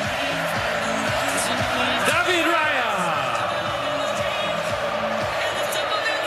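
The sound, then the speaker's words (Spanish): Argentine football fans cheer and chant in a stadium, a dense, continuous crowd roar with rhythmic sung tones running through it. “Escuchen al público argentino. Escuchen, escuchen, escuchen.”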